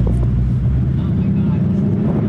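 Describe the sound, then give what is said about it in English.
Steady, loud engine rumble from a Ford Mustang as it drives off, a deep low growl that holds even and unbroken throughout, with no voices over it. “And you're actually going to let me drive it? You're going to love it. Nobody gets in a Mustang and doesn't love driving it. I promise. I've never had an accident. Off we go.”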